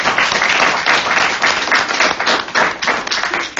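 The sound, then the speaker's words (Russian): Group applause at a sobriety support meeting: many people clap in a dense, even patter that stays loud and steady for nearly four seconds before easing slightly. “И похлопаем давайте сначала.”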